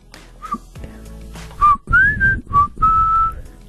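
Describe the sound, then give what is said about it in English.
Breathy whistling by a person, opening with a brief soft tone, then a run of louder sustained notes, one bending upward, each carrying audible rushing air beneath it. “You're a normal whistler.”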